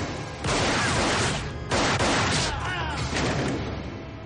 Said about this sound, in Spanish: Luego la recupera y dispara a su enemigo matándolo en el acto de varios disparos.